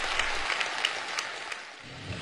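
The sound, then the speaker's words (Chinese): Warm applause fills a village Party branch meeting room in Liangjiahe. Many hands clap in a steady, fairly faint wash that continues without pause for the whole stretch. “北京人民大会堂的掌声不断，梁家河村党支部会议室同样回响着热烈的掌声。”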